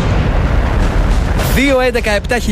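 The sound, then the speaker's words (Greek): A bomb explosion sound effect rolls out as a loud, rumbling roar, then a sharp burst hits and a voice begins talking over the fading noise. “Σταμάτα το χρόνο πριν σκάσει η βόμβα.”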